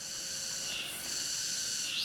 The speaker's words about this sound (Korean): 맴맴맴맴. 매미가 우는 소리에 귀가 먹먹했다.